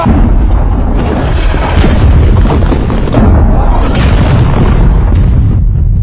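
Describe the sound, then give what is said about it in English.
Cannon fire from a ship's guns booms as a loud, continuous rumbling roar of overlapping blasts that rolls on for several seconds without clear breaks. “What's that? Cannon fire! One of those guns.”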